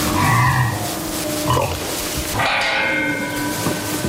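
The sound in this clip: Young woolly pigs grunt in a stall: a few short, gruff grunts and snorts come at uneven intervals over a low background rumble.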